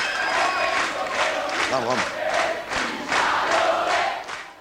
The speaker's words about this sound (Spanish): Y escuchamos las rivalidades entre el público de las diversas tribus urbanas e incluso entre bandas afines.